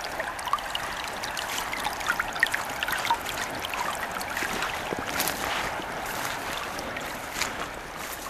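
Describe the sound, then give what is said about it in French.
Water laps and trickles faintly at a peat bog in a soft, continuous wash dotted with small, irregular splashes. “On retrouve le clapotis de l'eau, la tourbière,”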